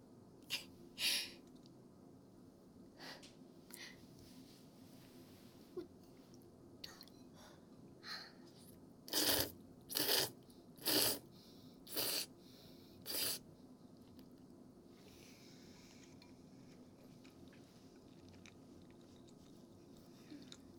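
Chewing and biting as people eat a meal together: many short, crisp bursts of mouth noise, quiet and scattered early on and bunched more densely through the middle, with no talk.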